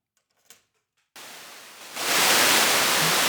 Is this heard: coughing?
no

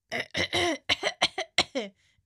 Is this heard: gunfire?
no

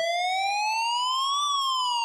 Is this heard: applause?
no

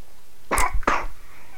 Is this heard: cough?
yes

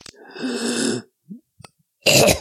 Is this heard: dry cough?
yes

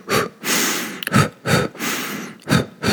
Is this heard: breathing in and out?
yes

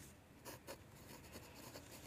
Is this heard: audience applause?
no

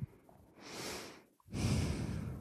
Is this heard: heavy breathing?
yes

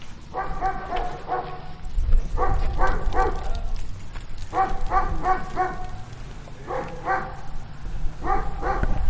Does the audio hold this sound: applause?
no

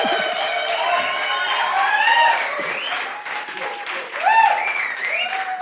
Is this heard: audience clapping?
yes

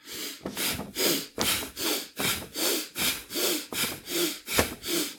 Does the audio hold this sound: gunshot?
no

